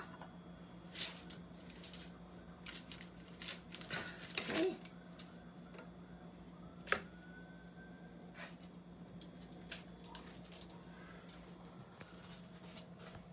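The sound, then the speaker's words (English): Sugar falling onto tin foil, heard as faint, scattered ticks with a brief denser cluster of crackling patter near the middle, over a steady low hum. “It's okay, the sugar is falling onto the tin foil. And if you want, you can make some designs.”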